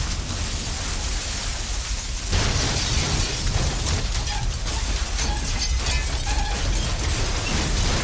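Twelve fire shells in a clip explode at once when set off by a burst punch. It is a dense, unbroken roaring blast that grows louder and harsher after about two seconds and keeps churning steadily to the end.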